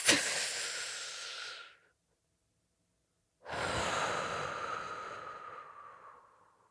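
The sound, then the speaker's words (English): A deep breath is taken outside in the fresh air. Two long, airy breath sounds are separated by a silent pause of about a second and a half, the second one trailing off slowly. “It's like, no, the fact that you went outside and took a deep breath is everything.”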